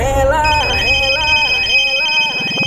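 A phone rings for an outgoing call during a live show, a steady melodic electronic ringtone that holds at an even loudness throughout.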